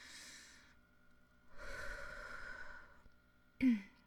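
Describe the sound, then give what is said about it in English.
A deep breath, faint and alone: two long, breathy rushes of air, then a short, sharp snort-like sniff at the end. “okay, another deep breath”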